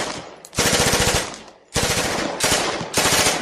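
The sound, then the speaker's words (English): Loud bursts of rapid automatic gunfire from deputies shooting and wrecking a neon sign, several sustained volleys of closely spaced shots separated by short gaps, with no talk. “Oh, they've absolutely wrecked the neon. It's them deputies shooting. Probably all drunk.”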